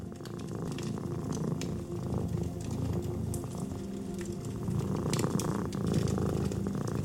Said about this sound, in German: Ein leises Schnurren entweicht deiner Kehle